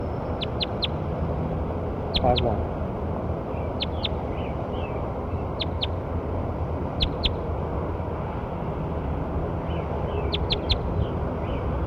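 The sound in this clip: A bird calls outdoors, giving about six quick clusters of two or three sharp, high, piercing notes, spaced irregularly over a steady background hiss.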